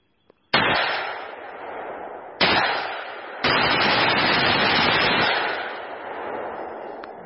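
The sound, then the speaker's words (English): Three loud shots from a Ruger AR-556 rifle, each a sharp crack followed by a long, rumbling tail that slowly fades, with no voices. “That is the Ruger AR-556.”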